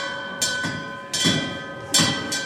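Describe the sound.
A toddler rings a bell enthusiastically at a children's museum exhibition: about four bright clanging strikes land at uneven intervals, each over a sustained metallic ringing tone that carries between them.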